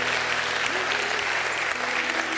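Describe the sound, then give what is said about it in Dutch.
Church audience applauds in a dense, sustained clapping that holds steady throughout, with a voice briefly heard over the clapping. “God een applaus.”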